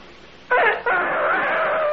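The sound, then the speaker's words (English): A voice imitates a chicken: after half a second of quiet, a loud crowing call bursts in, breaks off briefly, then carries on as one long, wavering, sustained tone. “You want to hear a chicken?”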